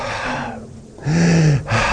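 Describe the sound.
A preacher's breath exhaled during a sermon, heard as a loud breathy rush of air, then a second, stronger exhale carrying a low voiced, sighing tone, with no words spoken.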